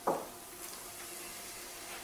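Onion goes into a hot pan of oil and garlic with a short burst of clatter. A steady, broad hissing sizzle follows and holds evenly to the end.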